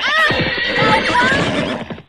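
A horse whinnies loudly in one long, quavering high-pitched neigh that holds steady for about two seconds before fading out at the end.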